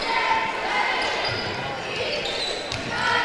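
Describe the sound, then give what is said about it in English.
A basketball is dribbled on the court in a Kansas Jayhawks game against Jefferson, in a stop-and-go pattern. A few dull bounces sit beneath a steady murmur of crowd noise. “Stop and go dribble.”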